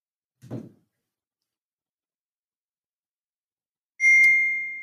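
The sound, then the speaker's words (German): A WhatsApp message notification on a phone gives a single bright electronic ding near the end that rings and fades. A brief, soft low thump comes earlier. “Die Nachricht kommt jetzt auf WhatsApp.”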